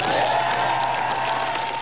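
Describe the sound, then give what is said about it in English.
Applause greets Keir Starmer as he leaves Downing Street, a brief, steady wash of crowd clapping that holds even and continuous throughout. “Sir Keir Starmer, who left Downing Street to rounds of applause”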